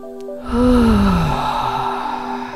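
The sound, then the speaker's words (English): A deep, calming breath is drawn and let out in one long, loud, slightly voiced exhale that sweeps downward in pitch and tapers off slowly. “Deep, calming breath right now. Another deep, calming breath.”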